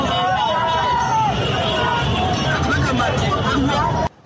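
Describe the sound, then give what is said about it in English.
A rowdy crowd of cyclists on Jinja Road near Wampewa police station demands motorcycles impounded on a breakdown truck, with loud, dense shouting and babble that cuts off abruptly near the end. “cyclists who appeared along Jinja Road towards Wampewa Avenue in what looked like a rowdy demand for the motorcycles that had been impounded on the breakdown truck that stopped at Wampewa police station. That's the noise you're hearing.”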